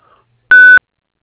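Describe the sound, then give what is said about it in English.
A single clean electronic beep marks the start of a voicemail recording. The steady mid-high tone sounds alone for about a quarter second, with silence before and after. “David Zuniga is not available at the moment. Sending you to voicemail. Begin speaking at the tone.”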